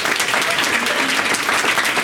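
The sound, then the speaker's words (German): Thunderous applause from a live audience: dense, continuous clapping that stays loud and even from start to finish. “Vielleicht wirst du mit einem tosenden Applaus begrüßt.”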